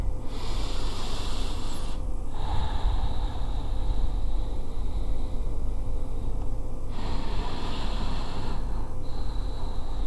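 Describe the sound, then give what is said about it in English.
Slow, deep breaths taken during a guided relaxation exercise: a few long, airy inhales and exhales, loud and breathy, with brief pauses between them and no talk. “I want you to take a couple of deep breaths with me.”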